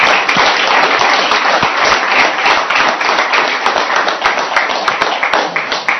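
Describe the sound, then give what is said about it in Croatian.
An audience gives loud applause to sports champions. The dense, crisp clapping stays strong and continuous throughout. “I molim vas još jedan veliko aplauz.”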